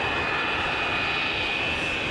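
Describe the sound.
Airplane flying low overhead, a loud, steady engine roar with a thin high whine riding on top, unbroken for the whole stretch and with no voices.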